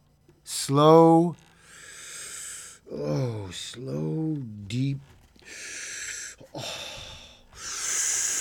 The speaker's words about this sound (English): slow, deep breathing, slow, deep. Oh, kind of breathing is a kind of meditation time.